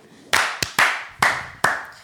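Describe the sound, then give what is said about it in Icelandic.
Hand claps for a live guest shout-out: a few slow, separate claps in an uneven rhythm, each sharp and bright with a short ringing tail, and no talk over them. “Viltum að klappa eitt fyrir honum?”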